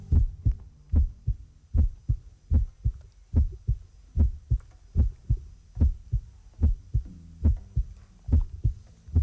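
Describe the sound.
Recorded human heartbeats, a steady, even rhythm of many low, soft thumps repeating without pause, heard alone over a faint background hum.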